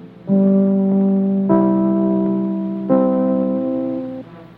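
Network radio station identification chimes: three sustained, bell-like tones struck one after another, each ringing on beneath the next, loud and clear with no voices.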